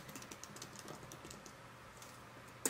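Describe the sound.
Computer keyboard typing while code is written during a programming demo: a dense, steady run of quick keystroke clicks that ends with one sharper, louder click.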